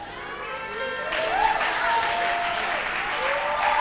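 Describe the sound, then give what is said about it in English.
A church audience claps in a dense, steady patter that swells after the first second and continues throughout, with cheering voices and a speaker's voice riding over it. “Those who are ready, they are clapping.”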